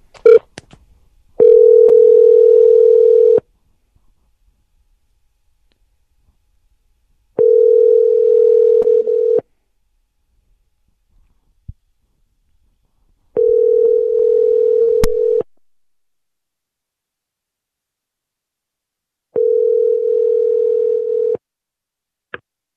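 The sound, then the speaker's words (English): A telephone tone after a call was hung up: four steady, single-pitch tones of about two seconds each, separated by longer silences, loud and alone, with faint clicks in between. “You hit pound and it hung up, I guess.”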